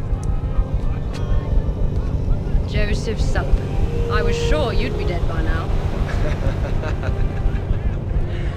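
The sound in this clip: A steady, low, droning hum from the four big rotors of a retro flying aircraft carrier, running continuously under people talking.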